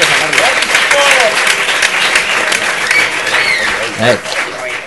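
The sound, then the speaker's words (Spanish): Applause and cheering from a live audience for a group of girls: strong, continuous clapping with scattered calls and voices mixed in, easing slightly after a brief peak near the end. “Un aplauso para las niñas de Wii, que se han portado divinas. ¡Bravo!”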